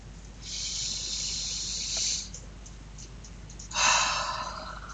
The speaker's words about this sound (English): Ha, breath one. Ha, breath two.